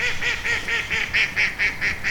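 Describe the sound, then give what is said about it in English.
Ducks and geese honk and quack from a river, a loud and steady run of nasal calls repeating about four times a second and continuing without a break. “To your left, sweeping lawns stretch down to the River Cam, home to geese, swans, and ducks,”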